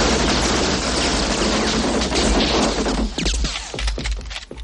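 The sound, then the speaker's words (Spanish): Heavy gunfire from two shooters below, aimed up at an exposed corridor in an action-film shootout. A loud, dense barrage of rapid shots runs unbroken, then thins toward the end into separate cracking reports. “Los dos de abajo empiezan a disparar hacia el pasillo descubierto.”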